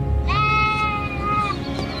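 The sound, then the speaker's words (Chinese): A sheep bleats once on a farm where the flock grazes open fields and woodland, a single wavering, nasal cry lasting about a second over a low background rumble. “平时这羊就是生活在这里，晚上就生活在林地里面。”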